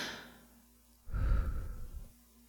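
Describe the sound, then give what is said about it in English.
A single soft exhaled breath, like a gentle sigh, rises and fades over about a second and stands alone, quiet and airy, without any talk. “You see my lips part slightly, and a soft breath escapes me.”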